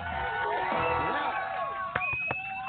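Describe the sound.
A studio audience cheers and whoops in a sustained, loud roar of overlapping voices, with sharp shouts rising above it and a couple of short bursts near the end.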